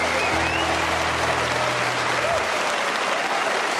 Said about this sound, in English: Round of applause.